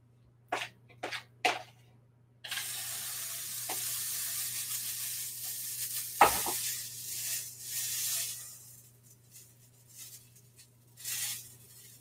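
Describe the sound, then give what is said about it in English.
Blueberry pancake batter sizzles in a freshly oiled pan: a few brief knocks open, then a steady, bright hiss sets in and carries on with small swells to the end. “Let me just wipe down my pan again. Add some more oil and more batter.”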